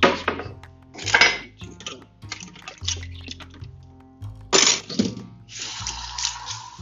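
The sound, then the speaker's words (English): Boiled pasta is drained in a kitchen sink. Metal pots and utensils clatter in several loud bursts, and a rushing pour of water follows near the end. “So I'm gonna hurry up and drain the pasta.”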